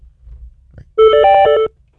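A telephone rings once with an incoming call to a radio call-in show: one loud electronic warbling trill lasting under a second, after a quiet, faintly rumbling stretch.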